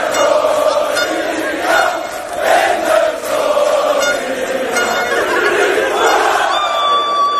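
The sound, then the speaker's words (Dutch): Football fans sing a birthday song set to a march tune in the street, a loud chorus of many voices carrying swelling, sustained phrases without pause. “Trakteerden ze hem op een liedje, want ja, zo hoort dat nu eenmaal op een verjaardag.”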